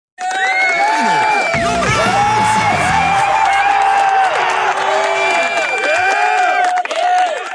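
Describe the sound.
A crowd cheers and shouts at length, loud, sustained yells and whoops that start abruptly and carry on without a break, the high held cries overlapping in a steady roar.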